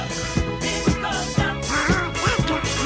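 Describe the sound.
A voice imitates a duck's quacking with a quick run of nasal, honking bursts over a steady, dense background.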